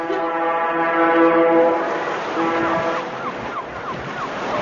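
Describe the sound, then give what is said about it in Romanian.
A fishing ship's siren blows a long, steady, low-pitched blast and then a shorter one, over a constant wash of surf and wind. “Sirena șuiera de zor.”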